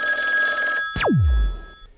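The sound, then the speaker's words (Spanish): A telephone rings for a radio call to a listener's number with area code 71 in Palermo. A bright, steady ringing tone breaks off at about one second into a steep downward-falling sweep that ends in a low rumble. “Nuestro artista llamará al teléfono indicado por... Le haremos llamado a un teléfono de la característica 71, correspondiente a Palermo.”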